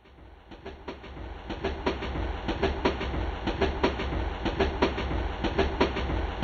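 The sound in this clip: A train passes with a steady low rumble and a regular clickety-clack of wheels over rail joints, repeating rhythmically throughout at moderate loudness.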